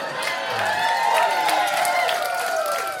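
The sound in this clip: An audience at a live comedy show cheers and whoops, a sustained, fairly loud blend of many voices.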